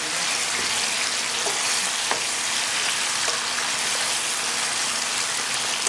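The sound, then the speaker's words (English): Chicken pieces fry and brown in a pan, giving a steady, even sizzle with a few small pops throughout and no talking. “turn this around until you see that the chicken is a little bit browned, just like so.”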